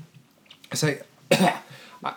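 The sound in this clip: Harsh, chesty coughing as someone recovering from a cold clears phlegm: a few rough bursts, the first two strong and a shorter one at the end, separated by short quiet gaps.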